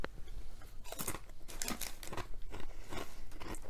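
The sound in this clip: Crunching on crisps during a tasting, with many sharp, dry crunch bursts in an uneven chewing rhythm. The bursts are fairly loud and heard alone, without talk.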